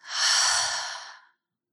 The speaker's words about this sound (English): And now take a deep breath into the throat and release.